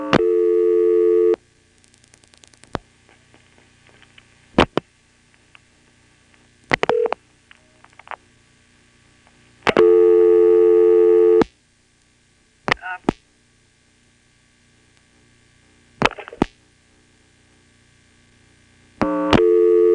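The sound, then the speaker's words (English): Telephone line tones and sharp clicks while dialing 0 and then 1 onto a long-distance trunk line: a few loud, steady buzzing tone bursts separated by quiet stretches, sharp clicks and brief chirps. “Let's try dialing 0, and then, once we connect to the trunk, dialing a 1.”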